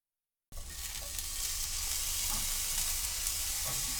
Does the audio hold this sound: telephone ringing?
no